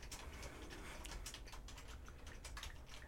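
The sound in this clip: Rapid typing on a computer keyboard: many quick, light key clicks in a fairly steady, uneven patter, quiet throughout, with no talking.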